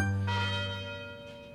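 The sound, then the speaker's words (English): University tower chimes ring with sustained, overlapping bell tones that slowly fade, faint and heard alone. “The University Tower chimes ring in another session of Ask the Professor”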